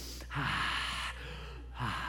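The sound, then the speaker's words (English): A person takes a deep breath: a long, breathy, hissing draw of air. A second breath begins near the end, both over a steady low hum. “Deep breath.”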